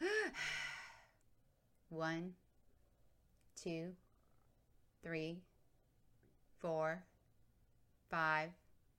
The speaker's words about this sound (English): Each hollow inhale is followed by a quick exhale.